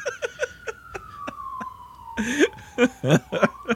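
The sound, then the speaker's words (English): An ambulance siren passing outside wails as one long, steady tone that slowly falls in pitch, broken by sharp, loud bursts over it toward the end. “That's the ambulance coming to take me away.”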